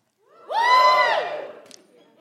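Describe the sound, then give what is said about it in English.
A comedy show audience lets out a short burst of whooping cheers that rises sharply, holds for about half a second, then fades away. “Give us a cheer if you're on the apps.”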